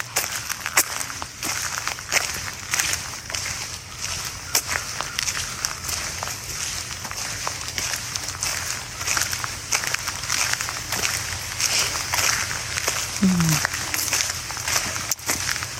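Footsteps walking through a forest: many irregular soft crunching steps in a steady, uneven rhythm over continuous rustling background noise.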